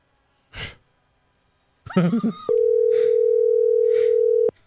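Telephone call tone, a loud steady electronic beep held at one pitch for about two seconds, preceded by a breath and a brief sighing vocal sound.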